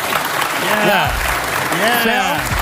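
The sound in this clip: Studio audience applause on a daytime talk show, a steady wash of clapping running beneath a speaking voice.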